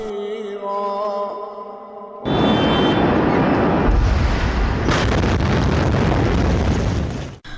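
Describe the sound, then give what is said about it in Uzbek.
Huge explosion in Beirut, Lebanon, captured on a witness's mobile phone: a quieter stretch with tonal background sound gives way to a sudden, loud roaring blast that rumbles on for several seconds, heavy and distorted like wind on the microphone. “Livanda poytaxt Bayrutni larzaga solgan dahshatli portlash guvohlarining mobil telefonlariga muhrlandi.”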